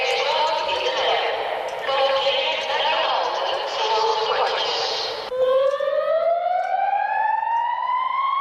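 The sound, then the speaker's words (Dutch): Alarm siren in a tram tunnel at full strength: a loud, blaring public announcement over loudspeakers gives way to a siren tone rising steadily in pitch and holding loud to the end. “Om 1 uur vannacht klonk op volle sterkte de mededeling dat mensen de bordjes moesten volgen en vervolgens klonk er een sirene. Het geluid was kilometers verderop te horen.”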